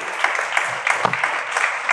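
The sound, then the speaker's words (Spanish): Audience applause for the author of a book's preface at a book presentation: a lively patter of many hands, with a few sharper individual claps standing out from the steady wash. “Un aplauso al autor del prólogo.”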